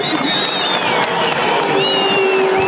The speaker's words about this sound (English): As they go up along the top of the mountain, all the fans providing a round of applause.